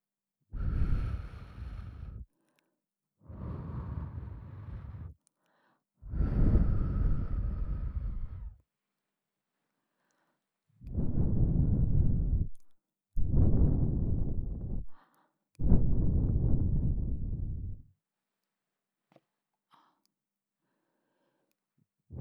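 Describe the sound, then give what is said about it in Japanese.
Six long puffs of breath blown into the listener's ear for ASMR, each a soft, roaring gust of air about two seconds long, separated by short silent gaps, with no voice. “耳風、気持ちいい？もっとしてあげるね。”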